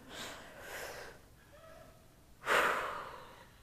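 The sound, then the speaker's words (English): A group of people take a collective deep breath: faint airy breathing at first, then one louder, fuller exhale that fades away. The sound is quiet throughout. “we should all take, before we read this scripture, a collective deep breath”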